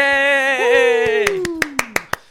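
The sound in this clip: A handful of sharp hand claps, presented as a studio audience, follow a long, drawn-out whooping voice, the claps coming quickly in an uneven run near the end.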